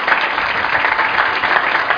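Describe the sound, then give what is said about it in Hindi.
A crowd applauds to honour an elderly guest at a gathering. The clapping is a dense, continuous patter that stays fairly loud and even, rising and falling slightly. “तालियां uncle के लिए।”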